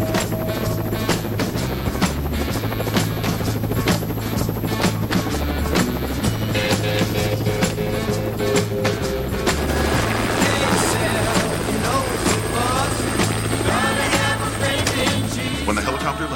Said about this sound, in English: A helicopter flies toward the quarry where the soldiers wait.